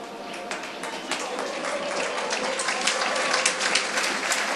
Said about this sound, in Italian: applausi a scena aperta per Max Marsili, autore anche quest'oggi, una grande prova